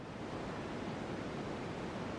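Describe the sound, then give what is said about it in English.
Constant, even static hiss of a white noise stream meant for sleep. The wash of noise is loud and unchanging, with no voices or other sounds. “What you're hearing is a white noise stream.”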